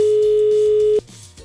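A telephone ringback tone on an outgoing call: one steady, loud beep lasting about a second, then cutting off to a quieter low hum.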